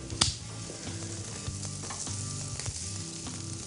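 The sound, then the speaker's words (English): Bacon sizzling while frying in a pan, with a sauce simmering nearby: a steady, fairly soft hiss of frying fat broken by light crackles and pops, without talk. “We can turn this heat down a little bit, just enough to thicken, and check your bacon.”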